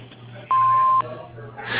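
An answering machine beep sounds once as a steady mid-pitched tone lasting about half a second. It is loud and clean, with faint telephone-line hiss around it and no voices.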